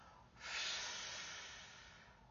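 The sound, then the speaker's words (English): Breath is blown out forcefully during a prayer: one long, breathy hiss that swells quickly, then slowly fades, fairly soft overall. “And I just now blow this out in Jesus' name. And then again. And then again,”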